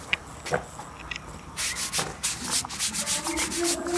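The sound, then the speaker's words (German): A brush scrubs someone's hands in a series of rough, rasping strokes. The strokes start faint, then turn louder and quicker about halfway through, with no talking. “Wenn Sie das versuchen, mit der Bürste wegzumachen, dann schrubben Sie meine ganzen Hände ab.”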